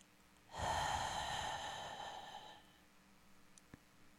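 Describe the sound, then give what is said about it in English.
A single forceful breath is pushed out during a breathing meditation exercise. The breathy, hissing exhalation lasts about two seconds and is fairly quiet, then fades into stillness. “Push the breath out.”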